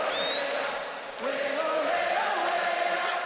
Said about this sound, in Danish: og det er meget, meget smukt det hele. Publikum synger også med. Ej! Ej! Det er sådan magisk.